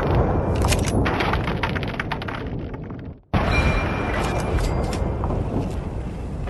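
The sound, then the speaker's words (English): A Mark V turret firing in a Fallout video game: a dense, loud stream of rapid shots that stops briefly midway before resuming. “Somebody's got a missile. Oh, it's a turret. Mark V turret, to be specific.”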